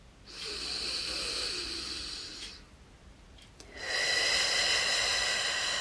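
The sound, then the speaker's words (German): Deep, slow breathing during a meditative moment. One long, airy breath of about two seconds is followed by a short pause and then a second, slightly louder breath, with no talk. “Ich atme ganz tief in mein Herz.”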